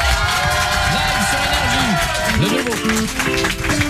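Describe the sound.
Studio audience at a TV show cheering and clapping: loud, dense, continuous applause mixed with shouts and whoops that holds steady throughout.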